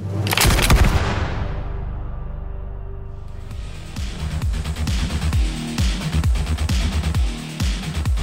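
Pistol gunfire in a duel: a loud opening blast with a deep boom, then many sharp cracking reports over a low rumble that keep on to the end.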